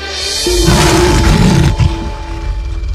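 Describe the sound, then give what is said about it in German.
A lion roars, loud, rough and rumbling, sustained across the whole clip with no speech. “Er erblickte Aaron und brüllte schrecklich.”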